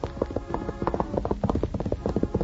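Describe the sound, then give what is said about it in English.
Hoofbeats of a racehorse setting off with a rider, heard alone as many quick, evenly spaced clops. The hooves keep a steady galloping rhythm at moderate loudness. “then climbed astride a racehorse furnished him by Captain Maddox and started again.”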